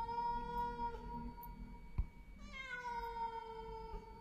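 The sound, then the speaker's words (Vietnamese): A cat in a yard meows plaintively, giving a couple of long, drawn-out mournful cries. The second starts higher and slides downward in pitch, and the calls are faint but clear, with no talk. “con mèo lúc nãy tưởng đã đi, thế nào mà giờ nó lại quay lại, kêu lên mấy tiếng thê thiết.”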